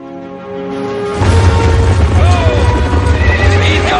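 Horses neigh and whinny in a period swashbuckler film scene with a carriage, the calls rising over a steady low rumble and hoof clatter that begins about a second in and continues to the end.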